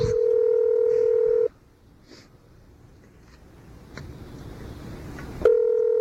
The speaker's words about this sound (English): Can't you dial any better?